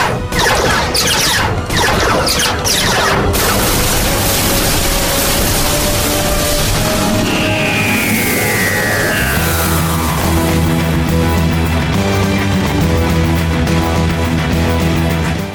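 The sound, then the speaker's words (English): Sharp blasts of gunfire from spacesuited aliens in a sci-fi audio drama crackle through dense noise early on. A falling tone and steady tonal sounds follow. “Now they're shooting at us!”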